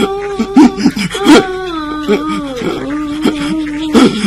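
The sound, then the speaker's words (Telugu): A person cries in loud, wavering sobs and wails, the pitch bending and catching with gasping breaths between the cries. “అరే ఎందుకు ఏడుస్తున్నావు చెప్పరా, ఏడవ మాక.”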